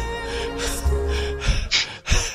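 A person gasps, out of breath, with several sharp, breathy intakes in quick succession toward the end, over a faint steady tonal background.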